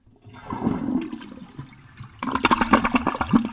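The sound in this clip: An American Standard toilet flushing: a rush of water swells and then dips, and a louder gurgling, sucking surge follows. No talk is heard.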